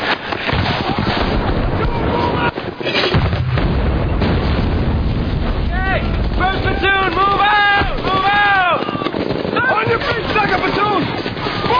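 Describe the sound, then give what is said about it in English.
Mortar and grenade launcher fire pounding a building, a dense, sustained roar of blasts and low rumble with shouting voices cutting through. “All right, I want mortars and grenade launchers on that building till it's gone.”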